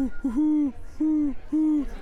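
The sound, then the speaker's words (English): An owl hoots outside a window: a few long, mellow, low hoots with a steady pitch, each separated by a short pause, and no voices. “Do you know of an owl nearby? I have owls outside my windows.”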